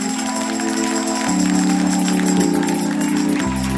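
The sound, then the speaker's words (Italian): Audience applause on a Saturday radio show, an even bed of clapping mixed with steady music chords that shift a few times before dropping lower near the end. “Applausi.”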